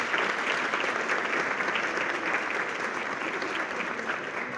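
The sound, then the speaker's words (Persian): Audience applauding in their own honour at a celebration for midwives and health workers: even, sustained clapping from many hands that holds steady throughout, with no talk over it. “بنابراین به افتخار خودتون که یه جورایی سلامت آقا و خانم جامعه به شما گره خورده یه کف مرتب بزنید.”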